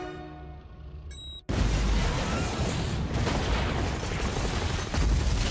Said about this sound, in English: As the chopper flies away, Skynet explodes in flames and a white rock.